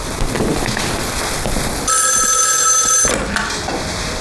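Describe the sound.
A telephone rings in a tense dramatic scene. A single bright, buzzing ring lasting about a second stands out over a noisy background.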